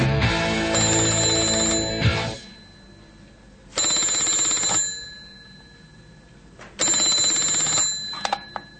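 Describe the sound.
Telephone ringing in three bright, trilling bursts, each lasting one to two seconds and separated by short pauses. The ringing is fairly loud, with no voices.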